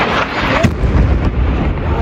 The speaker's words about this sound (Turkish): Patlamanın ardından yayın aniden kesildi.